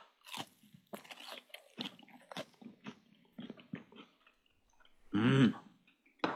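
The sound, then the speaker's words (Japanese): Crunchy bites and chewing of a thick fried horse mackerel fillet eaten with sauce and lemon: a run of soft, short crunches, then one loud crunching bite near the end, with no talking. “身がしっかりと分厚くあるねアジフライですけれども、お味どうでしょうか？ はい、今日は私はソース&レモンでいただきます。”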